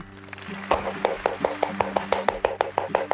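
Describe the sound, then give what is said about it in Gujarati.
Audience applause greets a film actress who is also a producer and director: many sharp claps fall in a steady, even rhythm over a low sustained background tone. “તાળીઓથી વધાવી લઈએ આશાજીને.”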